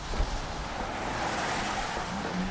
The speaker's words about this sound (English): That's the sound of cars cruising through the toll plaza off the Mass Turnpike in Framingham today.